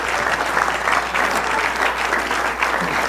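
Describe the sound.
Warm audience applause greets a speaker at a church gathering. A dense, steady wash of clapping holds at an even loudness for the whole stretch.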